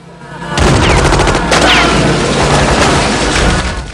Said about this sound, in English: Frankie runs towards it, firing his machine pistols